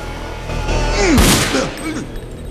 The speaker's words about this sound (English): Zepp ducks and the gun goes off in Tap's chest